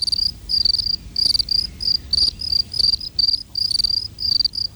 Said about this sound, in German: Und wie überwintern die Grillen, die ja auch zu den wechselwarmen Tieren gehören?